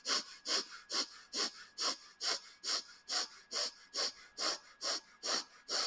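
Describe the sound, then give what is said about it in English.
Forced inhales and exhales through the nose in a breathing exercise: many rapid, evenly spaced, hissing puffs of air in a steady pumping rhythm, with no talking. “this breath is done only with the nose, and you are going to force the inhale and force the exhale with this method. So it's like this.”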